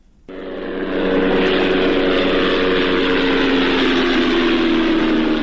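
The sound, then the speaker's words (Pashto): An unmanned drone aircraft flies overhead in Ghazni province, Afghanistan. Its steady propeller drone starts abruptly, swells over the first second, then holds a loud, even buzzing hum. “دا د هغه بي پيلوټ الوتکه چې غږ د پر افغانستان د طالبانو له حاکمیت څخه ورسته هم د غزنی ولایت تر څنګ د پکتیا، پکتیکا او ځینو نورو ولایتونو په هوا کې ګرځي.”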